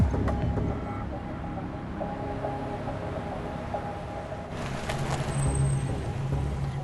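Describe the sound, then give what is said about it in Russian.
Road rumble of a black van driving across a bridge, a steady low drone that holds through the whole stretch and swells slightly toward the end, with no voices. “Черный фургон едет по мосту.”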